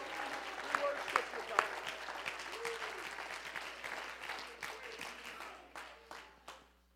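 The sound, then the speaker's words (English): A church audience claps their hands in worship, a dense, continuous patter of applause mixed with voices that thins toward the end into a few last separate claps. “Clap your hands to him right now.”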